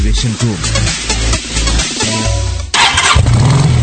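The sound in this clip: A motorcycle engine starts and revs loudly with a rough, low mechanical growl, then breaks into a sudden brighter, noisier burst near the end.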